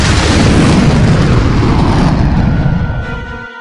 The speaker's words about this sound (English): Ship after ship after ship blossomed into flame and plummeted downward, trailing smoke and debris.